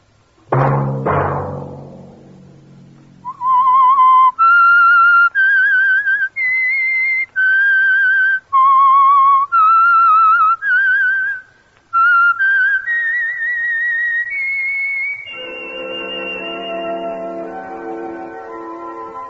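A whistled theme melody of clear, sustained notes, some gliding between pitches, begins after a few sharp opening hits. It ends on a fuller, held lower tone.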